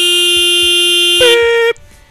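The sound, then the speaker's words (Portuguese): A horn sounds as a loud, steady, buzzy blast that jumps to a higher pitch partway through, then cuts off abruptly, leaving only faint low noises. “Tem que colocar outra buzina mesmo?”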